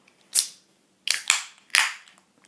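A beer can is cracked open: a few sharp pops and clicks, each followed by a short bright fizzy hiss, with a single pop first and then a quick cluster, and no talking.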